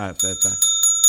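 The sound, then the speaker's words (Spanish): A bell rings after it falls: sustained, bright, high metallic tones with a few sharper clanging strikes. A voice talks over the start. “Se cayó la campana, se cae medio mundo aquí.”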